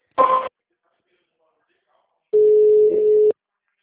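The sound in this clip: Telephone ringback while a call is being transferred to a sales agent: a brief burst of tone, then after a pause one steady, low, humming tone about a second long.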